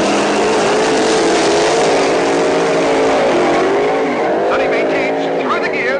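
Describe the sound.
Roaring engines of drag race cars, one an Oldsmobile, launching from the start at the green light: a loud, continuous, high-revving drone with stacked engine harmonics that holds steady throughout.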